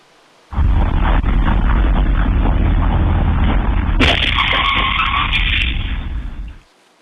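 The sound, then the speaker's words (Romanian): A school bus colliding with a car at a downtown intersection and rebounding into a lamppost: a loud, continuous roaring rumble, a sharp crashing burst midway, then more roaring before it cuts off. “Autobuz școlar implicat într-un accident într-o intersecție din centrul unui oraș din Statele Unite. S-a ciocnit violent cu o mașină și a ricoșat într-un sâlp de iluminat.”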